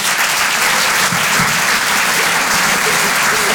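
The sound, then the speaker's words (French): Loud, dense audience applause at a live stand-up comedy show in a Paris theatre as a comedian is welcomed onstage. The clapping is steady and unbroken throughout, with no talk over it. “Je vous demande de l'encourager, s'il vous plaît, faites du bruit pour Rémi Boy.”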